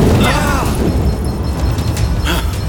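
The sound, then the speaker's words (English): A loud explosion effect of an enemy blast hitting a starship in a sci-fi audio drama: a heavy, rumbling boom with a burst flaring again near the end. “My sensor pad indicates they fired another blast, sir! Prepare for impact!”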